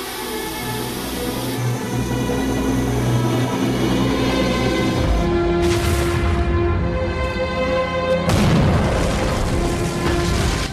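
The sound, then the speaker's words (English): A gas-filled building explodes into flame with a loud, sustained roar broken by two heavy booming bursts, the fire rumbling on between and after them. “The building erupts in flame.”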